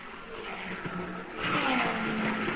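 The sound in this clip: Race cars speed around an oval track with a broad engine roar that swells louder around the midpoint and carries a rising tonal whine as the cars pass.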